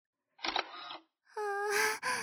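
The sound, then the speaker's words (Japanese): A camera shutter fires as a photo is taken. A short, clicky mechanical burst comes first, and after a brief gap a brighter, ringing electronic tone follows and ends abruptly. “そもそもさ、こんな最高の眺め写真に撮らないわけないでしょ。”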